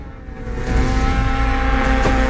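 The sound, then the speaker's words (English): Snowmobile speeding across snow: a loud, buzzing motor drone that grows stronger after the first moment and stays steady and intense to the end. “His motor sled sprays snow into the air as he glides it down a steep hill.”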